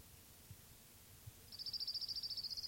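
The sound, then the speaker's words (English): Orange-crowned warbler song: a faint, high, rapid trill of evenly repeated notes at a steady pitch, lasting about a second, heard over low background rumble. “Orange Crown Warbler number 2.”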